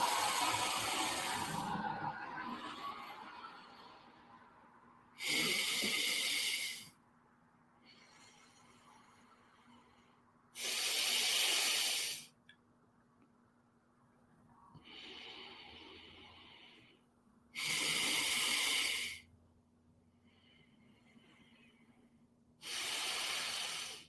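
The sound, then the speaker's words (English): Alternate nostril breathing during yoga: loud, hissing nasal breaths come in four strong bursts spaced several seconds apart, with softer, quieter breaths in between. “We're just going to focus on left to right breathing. Inhale through the right, plug, exhale to the left. And keep switching.”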